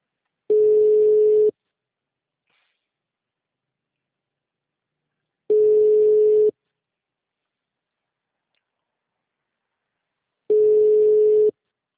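A telephone line tone heard after a dropped call: three steady single-pitch beeps, each about a second long, spaced roughly five seconds apart with silence between them.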